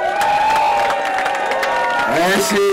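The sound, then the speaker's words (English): A crowd at a gathering claps and cheers for its host, with shouted voices and whoops riding over scattered clapping. “Can we clap for Mushi?”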